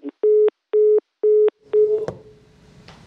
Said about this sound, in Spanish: se nos cortó con ah, Paco Nieto, pero ahora eh, retomamos la llamada